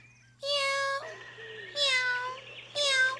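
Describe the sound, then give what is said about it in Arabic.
A cat meows three times, each a clear, drawn-out, tonal cry with a short gap between. A steady low hum runs underneath throughout. “مرحبا يا قطة. ماذا تفعلين هنا؟”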